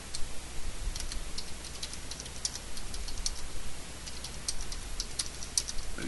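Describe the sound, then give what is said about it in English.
Rapid, light tapping of fingers typing a text message on a phone: many soft, irregular clicks over a steady low hum, with no voices. “I'm texting him right now.”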